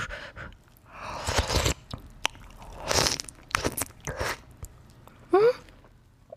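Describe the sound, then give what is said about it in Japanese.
Chewing of blackthroat seaperch mixed with rice, heard as a few soft, crunchy bites and wet mastication sounds in an irregular rhythm, fairly faint, with no talking. “やっぱ出来たてが一番美味しいからすぐにいただきますね。ちょっとご飯と混ぜてのどぐろと一緒にいただきます。”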